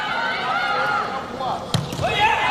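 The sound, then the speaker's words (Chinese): A volleyball serve being struck during a match against Thailand's team: one brief, sharp impact amid steady crowd noise and commentary. “王舒明换上来发球，”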